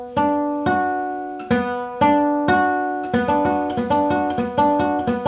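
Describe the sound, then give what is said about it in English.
An electric-sounding guitar chord is fretted on the A string at the 14th fret, the D string at the 12th and the G string at the 11th. It rings out through a few slow strikes, then is repeated in quicker plucks. “And my first finger, I've got the G string, 11th fret. So it sounds like this.”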